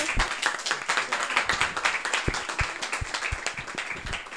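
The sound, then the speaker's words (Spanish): An audience applauds at a public talk, dense, steady clapping from many hands running throughout at an even, moderate level. “Además, un aplauso.”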